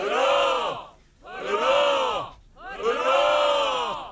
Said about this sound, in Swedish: Ett rätt tamt hurra där, men det fyrfaldigt lever för Carola som alltså idag fyller 60 år.